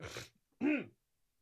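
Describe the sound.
Throat clearing in two short bursts: a rough, breathy rasp, a brief pause, then a louder voiced grunt that dips in pitch, with no talk around it.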